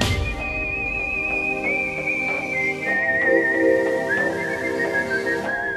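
A person whistling a signature tune: a clear, sustained high melody of held notes and small pitch steps that drifts gradually lower, set over a soft, steady low backing with a few faint thumps.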